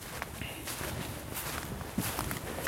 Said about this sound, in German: Aber wir gehen noch ein bisschen hier mal richtig, wir gehen jetzt mal hier querfeld einmal rein in den Wald.